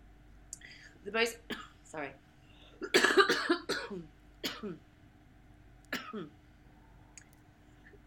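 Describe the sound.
Someone coughs and clears their throat from a tickle in the throat, in several irregular sharp bursts mixed with brief murmured vocal sounds.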